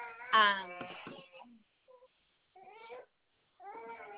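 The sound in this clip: A fussy baby cries during a phone call, giving a few short, high, whimpering wails with pauses between them.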